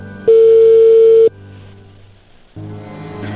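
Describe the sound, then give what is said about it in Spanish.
A telephone call coming in signals with a single steady electronic tone, loud and about a second long, then quieter sound follows. “Ahí entró la llamada”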